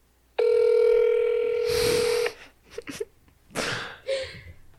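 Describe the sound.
A telephone on speakerphone gives a steady dial tone for about two seconds, followed by a few noisy bursts and a short dialing beep.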